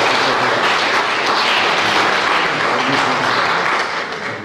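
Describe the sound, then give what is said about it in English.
Applause from a crowd at a sports awards presentation, dense and steady clapping throughout that eases slightly toward the end. “So please, put your hands together for Niamh.”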